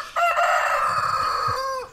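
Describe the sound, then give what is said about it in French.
A healthy farm rooster lets out a single long crow, a loud, sustained, brassy call that holds steady and dips slightly in pitch at its close, heard alone with no voices. “Ah, voilà, le coq radio G, lui qui n'est pas malade du tout.”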